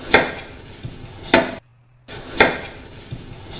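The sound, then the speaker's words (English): An axe chops off clinging tentacles in three heavy, sharp blows, with lighter knocks between them and a short silence before the third strike. “There is an axe. Use it! Chop off the tentacles.”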